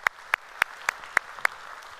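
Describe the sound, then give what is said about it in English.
Clapping from a church audience welcoming another campus: six crisp, evenly spaced claps in a steady rhythm, fairly loud. “So if you would, put your hands together and welcome them into our conversation today.”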